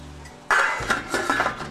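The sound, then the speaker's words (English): Metal lid set back onto a cooking pot of mushrooms cooking down to release their juices: one sudden, bright clatter, then a few lighter metallic rattles. “Maybe say another 5 to 6 minutes. We'll put the cover back on.”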